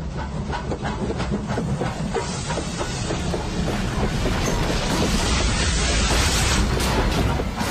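A railway engine rushing in as a sound effect, with loud, continuous hissing steam over a deep rumble and a rapid rhythmic clatter of wheels running steadily throughout, with no voices.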